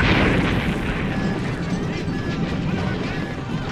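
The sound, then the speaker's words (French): A sci-fi explosion as a compartment next to the ship's airlock blows apart after a small blue flash from a huge enemy cruiser: a dense, loud roar that holds steady for several seconds without fading. “Un minuscule flash de lumière bleue pulsa de l'immense croiseur ennemi et un local adjacent explosa.”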